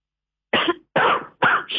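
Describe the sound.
A person coughs several times in quick succession after a moment of silence. Each cough is a short, harsh burst, and no one talks.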